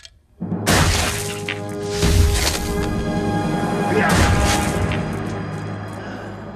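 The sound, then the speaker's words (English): A beast's skull is hammered into a floor with a sudden, loud crashing impact. A sustained rumbling, ringing noise follows and slowly fades. “The beast responds by hammering his skull further into the floor.”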